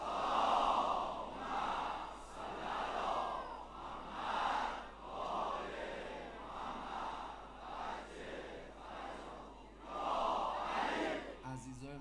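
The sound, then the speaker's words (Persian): Crowd at a religious gathering reciting salawat together in unison, many voices chanting in rhythmic swelling waves that rise and fall repeatedly at a strong, steady level. “یه صلوات دست جمعی بفرست.”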